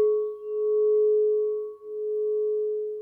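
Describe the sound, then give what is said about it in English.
Crystal, gemstone and precious metal singing bowls give a sustained, pure ringing tone that swells and dips in slow beats, alone. “So these are crystal gemstone, precious metal bowls, and they've got different properties to them, but it's the sound of nature.”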